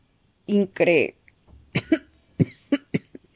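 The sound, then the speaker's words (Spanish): A voice imitates a sudden coughing fit, with several rough, throaty cough bursts in quick succession, loud and alone. “sin previo aviso, le sobrevino un ataque de tos.”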